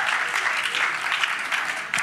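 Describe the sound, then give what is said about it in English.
An audience claps for the band and musicians at a service, with dense, continuous applause that holds at a steady, loud level throughout and has no voices standing out. “Let's give the band and the musicians a round of applause.”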